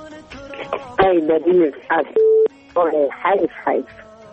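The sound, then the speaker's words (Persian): A single short, steady electronic beep of a telephone call being connected, sounding alone for a moment between stretches of lively talk by a man. “یک تماس دیگه را وصل می‌سازیم”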